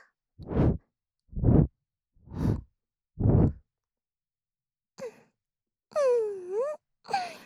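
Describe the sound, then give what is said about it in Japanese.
Four soft, breathy puffs are blown gently into an ear at an even, unhurried pace. After a pause come a few soft, voiced sighs. “じゃあこっちもちょっとふうふうしましょうか。”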